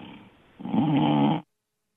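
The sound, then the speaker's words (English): A man snores over a telephone line: a faint breath, then one loud, rasping, growling snore with a thin, band-limited tone, then silence. “are you snoring? Hey, put him back on.”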